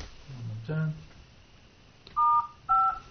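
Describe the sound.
Telephone keypad tones sound as star and then 5 are pressed on a conference call: two short, bright dual-pitched beeps in quick succession after a brief, quieter sound.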